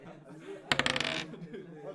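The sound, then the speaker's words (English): Dice rattle and clatter in a quick burst of small, bright clicks lasting about half a second, with people talking before and after. “You roll the dice, right? Okay, go ahead.”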